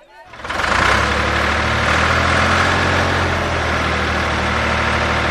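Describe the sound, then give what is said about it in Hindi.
A tractor engine swells up within the first second, then holds a loud, steady, low rumble for several seconds. “Tractor.”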